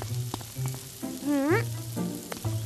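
Sizzling of cauliflower patties frying in a pan, the cauliflower precooked beforehand; a steady, fairly loud crackling hiss runs through the whole stretch with no talk.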